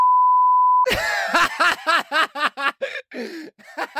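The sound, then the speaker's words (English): A steady sine-tone censor beep sounds alone for just under a second, flat and unwavering, then cuts off into bursts of chuckling laughter. “that's getting the biggest beep you've ever heard.”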